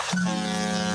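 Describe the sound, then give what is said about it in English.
A cruise ship horn sounds one deep, steady blast that begins just after the start and holds at an even, loud level to the end. The tone is rich in harmonics. “It is the sound of a cruise ship horn.”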